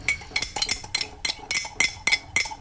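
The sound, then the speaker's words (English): A spoon clinks against the inside of a cup while stirring tea or coffee, making many bright, ringing metallic taps in a quick, slightly irregular rhythm. No voices are heard. “Stirring tea or coffee.”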